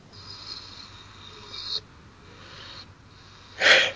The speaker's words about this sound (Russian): И делаем вдох и выдох.